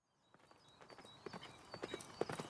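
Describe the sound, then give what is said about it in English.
A horse carrying a knight on horseback gallops, its hooves striking in quick, uneven clip-clops. The hoofbeats start faint and grow steadily louder. “A knight on horseback gallops towards the city of Winchester in southern England.”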